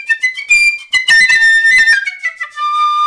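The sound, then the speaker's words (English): A piccolo played with its head joint attached sounds a run of bright, high, whistle-like notes that shift in pitch, loud and clear with no talking. “once you put the head joint on the instrument, sounds like this.”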